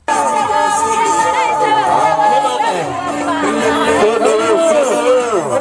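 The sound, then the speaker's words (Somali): A crowd made up mostly of women ululates to welcome a candidate for the women's seat in Garissa, with loud, dense trilling whoops running continuously alongside chatter and shouting. “mid kamida dumarka u taagan kursiga haweenka ee Gaarisa Kiman Axmed Ugaas ayaa hadda u mashxaradayaan dad u badan dumar”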